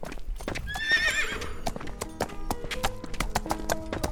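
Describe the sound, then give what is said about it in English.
A pony's hooves clip-clop in a quick, steady rhythm of many hard knocks, with a high, wavering whinny rising over them early on. “I finally got me my dancing pony”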